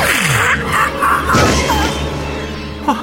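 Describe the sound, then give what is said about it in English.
A sci-fi energy weapon fires in an audio drama as a Sontaran is shot: a loud zap that sweeps downward in pitch, followed by crashing, booming effects and a short chirp near the end. “You killed a Suntaran. With a single shot.”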